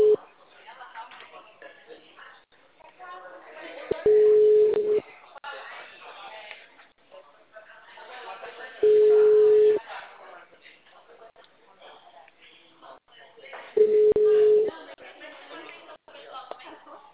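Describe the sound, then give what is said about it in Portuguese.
Telephone ringback tone on a call: three steady, mid-pitched tone pulses, each about a second long and spaced several seconds apart, sounding under continuous talk. “Não, deixa, tá ligando.”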